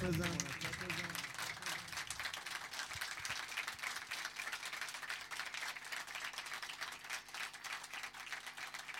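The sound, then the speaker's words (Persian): An audience claps in a steady, rapid rhythm at a devotional gathering honoring Ali ibn Abi Talib, a faint, dense patter of many hands running through the whole clip with a voice over it. “بیار بالا به عشق مولا یه دست مرتب بزن”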